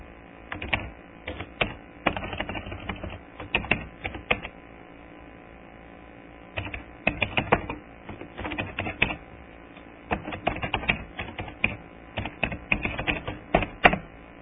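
A name being written down by hand, heard as bursts of quick, scratchy strokes in several groups separated by short pauses, with no talk.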